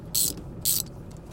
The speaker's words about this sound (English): I've got this ratchet here. I've got to have a ratchet